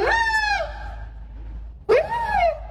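A person imitates a loon call at a loon-calling contest in Maine, giving two long wailing cries, each bending upward then sliding down, with a pause between them.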